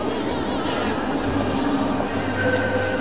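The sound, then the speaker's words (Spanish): Line 3 metro train in Barcelona pulling into a station: a steady low rumble and mechanical hum, with a thin high whine emerging toward the end. “Ahí veis cómo viene un metro, no es el de la línea 2, es el de la línea 3, la línea verde.”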